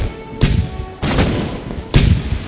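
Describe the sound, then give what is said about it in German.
Pirate ship cannons firing at an enemy ship: three heavy, deep booms, each a sudden loud blast that fades into a rumbling tail, spaced roughly half a second to a second apart. “Jetzt heißt es, Feuer frei. Sie schießen mit ihren Kanonen auf das gegnerische Schiff.”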